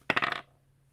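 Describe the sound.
Dice rolled to predict a game's score, a quick rattling clatter of several hard impacts over less than half a second, then quiet.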